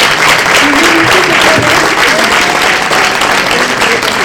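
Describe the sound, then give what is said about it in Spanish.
Applause from the attendees of a political assembly meeting after a vote, a loud, dense and unbroken clatter of many hands lasting the whole stretch. “Muy bien, pues esto merece un aplauso de los primeros, ¿no?”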